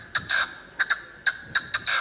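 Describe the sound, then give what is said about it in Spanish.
A partridge calling: a series of short, sharp, high chirping notes in an uneven rhythm, some coming in quick pairs and a couple stretched into longer rasping notes. The calls are fairly faint and heard on their own. “No. Una perdiz. La perdiz. Eso es una perdiz. Es una perdiz.”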